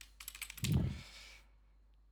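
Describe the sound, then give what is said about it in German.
Computer keyboard keys clatter in a quick burst of crisp taps as a number is typed in, then a short softer rustle trails off into quiet. “Ich hack das mal eben hier kurz rein.”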